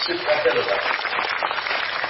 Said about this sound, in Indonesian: Ya, tepuk tangan.